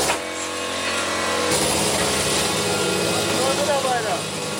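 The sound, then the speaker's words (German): Metalwork aboard a ship, with grinding, angle-grinding and hammering under way: a continuous harsh, whining grinding noise fills the air while voices speak over it. “An jeder Ecke an Bord wird geschliffen, geflext und gehämmert.”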